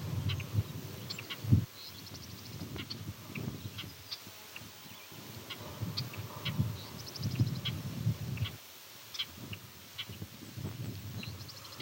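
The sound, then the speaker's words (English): Savannah sparrow singing outdoors near bobolinks: thin, high, buzzy insect-like phrases repeat many times at a moderate level over a steady low background rumble. “No, that's a savannah sparrow.”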